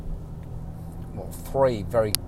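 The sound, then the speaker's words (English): Low, steady engine and road rumble inside a car being driven, continuing throughout, with a voice talking briefly near the end. “I'm in the car driving right now”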